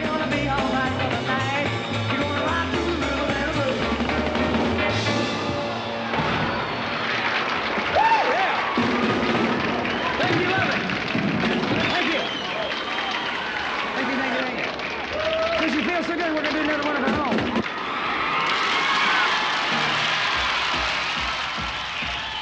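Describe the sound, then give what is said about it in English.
A young crowd roller skating and dancing past a band's stage while clapping and cheering, a continuous lively din with voices mixed in throughout. “Buddy's young and highly appreciative audience roller skate past his stage, dancing and clapping.”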